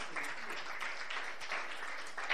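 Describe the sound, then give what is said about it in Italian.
Applause at a Christian church gathering: many hands clapping in a steady, even wash from start to finish, with no voices on top. “Diamo un applauso”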